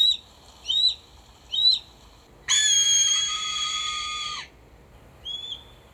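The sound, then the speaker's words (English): A bird calls inside a house at night: three short, sharp chirping calls, then one long, loud, drawn-out screeching call, and finally a single short call, with quiet between. “And I'm thinking like, there is a bird in this house.”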